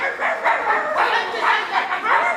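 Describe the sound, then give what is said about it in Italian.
Dogs barking at each other: a quick run of mid-pitched yaps and woofs in rhythmic, closely spaced bursts that overlap as they answer one another. “che degenera poi in latrati di cani che abbaiano tra loro”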